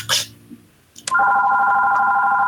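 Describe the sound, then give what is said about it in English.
A phone rings during a conversation. After a brief burst of noise and a short quiet gap, a steady, loud electronic ringtone comes in about halfway through and holds unbroken to the end. “Oh, sorry, that's my phone.”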